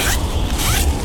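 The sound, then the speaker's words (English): A rasping zip from the zipper of a child's new warm winter coat being zipped up: one quick, loud, gritty stroke lasting about a second, with no talk. “That's the sound of a child zipping up their new warm winter coat that you donated.”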